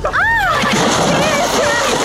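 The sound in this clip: Splash of someone jumping into cold water, a loud, continuous rush of churning water lasting about two seconds, with a high voice crying out over it.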